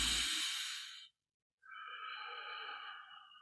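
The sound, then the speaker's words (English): Deep relaxation breathing: slow, long breaths drawn in through the nose and let out through the mouth. Two sustained airy breaths are heard, separated by a short silent pause, with no talking. “just take a couple deep cleansing breaths. It's going to be a nice long inhale through the nose, nice long exhale through the mouth.”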